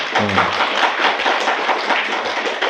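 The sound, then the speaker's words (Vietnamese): Applause from listeners at a Buddhist teaching talk: a short burst of dense, fast clapping that runs through the entire moment at an even, fairly loud level. “Câu đó hay, cho tràng pháo tay nữa đi.”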